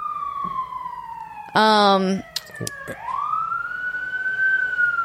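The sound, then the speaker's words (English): Sirens wail throughout, a long sweeping tone that slides down and then climbs again, broken by a short loud harmonic blast and a few sharp clicks. “Sorry about the sirens.”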